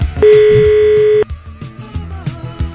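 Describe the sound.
A telephone line gives one loud, steady tone for about a second, then cuts off into a series of short clicks and faint tones.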